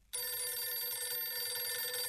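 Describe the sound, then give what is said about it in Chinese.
A telephone bell rings loud and continuous, an electric bell that starts abruptly after a brief quiet moment and holds steady for about two seconds, alone with no voices. “刘厚同便给傅作义挂了个电话”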